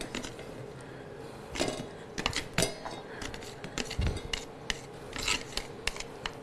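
Wet crackling and rasping of blanched bean sprouts squeezed by hand to press out the water, irregular crunchy bursts of varying loudness with a few sharper pops, no talking.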